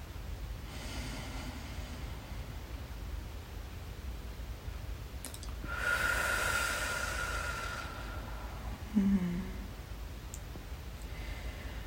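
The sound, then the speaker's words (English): A single slow, deep breath taken during a guided relaxation exercise swells softly out of a quiet background, then fades away. “Let's take a breath here.”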